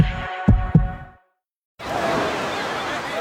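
A heartbeat gives two low, soft thumps in quick succession, followed by a silent gap and then a steady broad hiss.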